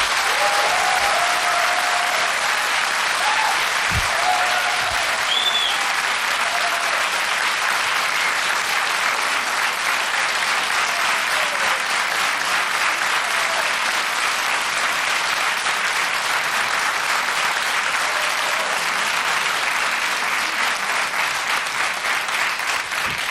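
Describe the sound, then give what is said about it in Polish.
Audience applause in a concert studio: loud, dense clapping from a crowd runs continuously and evenly for more than twenty seconds, with no break or fade. “Bardzo proszę o brawa dla wszystkich, nie tylko polskich artystów, naprawdę głośno.”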